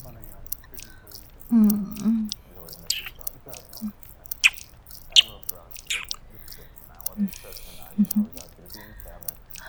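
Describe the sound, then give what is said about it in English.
Biting and chewing of a snack: a few crisp bites, then many soft, wet crunches of chewing, with a quiet whispered voice at times. “Let me just have a taste of the snack right here.”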